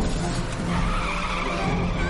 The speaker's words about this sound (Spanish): Huyen y las pertenencias de Marnie salen disparadas. Los policías le siguen en sus coches.